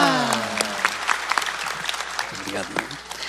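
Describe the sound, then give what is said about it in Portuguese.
Applause from an audience at a Catholic Mass, cheering Canção Nova: a dense, crackling patter of many hands clapping throughout, with a voice speaking over the opening moments. “Agora você pode dar uma salva de palmas bem grande à Canção Nova.”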